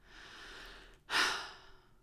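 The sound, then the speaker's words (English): A deep human breath, a quiet drawn-out intake followed by a sudden, louder sighing release that gradually fades, heard alone. “Take a deep breath.”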